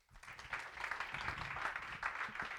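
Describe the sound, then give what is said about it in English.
An audience claps to welcome a speaker at a Sunday morning church service. The applause is a dense, steady patter of many hands that swells quickly and stays even throughout. “would you put your hands together and help me welcome Dr. Bobby Gupta.”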